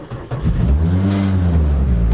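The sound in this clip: A Citroën Xsara WRC rally car engine accelerating: a loud, harmonically rich engine note climbs in pitch as it revs, then holds at a high, sustained roar.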